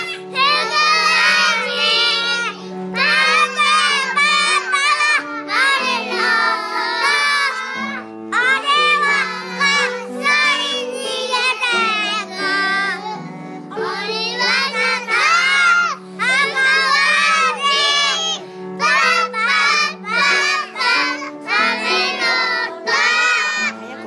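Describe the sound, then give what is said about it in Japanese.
Children from Mochimune kindergarten sing a Setsubun bean-throwing song, many young voices in a loud, energetic chorus that runs in shouted phrases with short gaps throughout. “持宗こども園から元気で可愛らしい子どもたちの歌声をお届けしました。”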